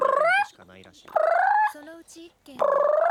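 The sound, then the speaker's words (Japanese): A person's voice imitates the yowl of a cat in heat: three loud, drawn-out wailing calls with quieter, lower vocal sounds between them. “だってもう盛った時の猫の声とかやるから、 はいはい、 結構猫を誘惑できる。”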